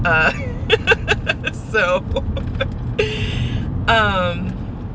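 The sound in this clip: Low, steady road rumble inside a car being driven, running continuously beneath a person who talks throughout.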